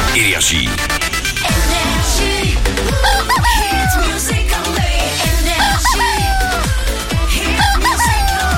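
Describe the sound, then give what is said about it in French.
An agitated rooster crows loudly and insistently, its calls overlapping dense, continuous background sound throughout. “Il va se calmer ce coq, oui, mais il est enragé, c'est pas possible.”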